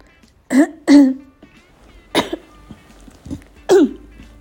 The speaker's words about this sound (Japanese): ごめんなさい咳が出ちゃう